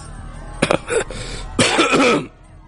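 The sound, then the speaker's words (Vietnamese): A few harsh, rough coughs from a helmeted cavalry commander who has just been thrown from his horse, two throaty bursts separated by a short pause over a low, steady rumble. “ho khan mấy tiếng”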